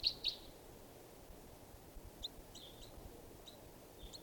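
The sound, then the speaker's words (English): Faint, high chirps from a juvenile bird: two clearer short calls at the start, then several brief, quieter chirps scattered over a soft background hiss, with no talking. “this is one of the birds. It's a juvenile.”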